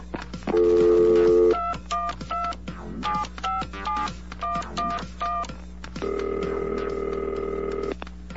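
Telephone dialing tones over a phone line as an incoming call is taken: a long steady tone, then a run of short, evenly spaced beeps in small groups, and another long sustained tone to finish, all loud and clear with no talk.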